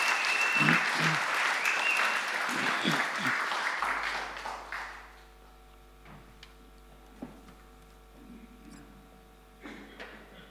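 Audience applause welcomes a musician after his solo. Loud, dense clapping fills the first half, then fades to quiet sustained tones.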